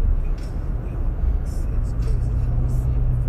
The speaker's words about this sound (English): I'm trying to talk while I'm trying to navigate through traffic, you know what I'm saying?